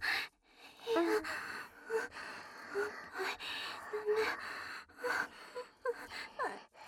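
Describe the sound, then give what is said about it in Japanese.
Heavy, uneven breathing from a person, with repeated gasps, sighs and shaky breaths in an irregular rhythm, fairly close and clear, with no talk. “乳首の周りをちょっと撫でられただけで、もう呼吸を乱してます。”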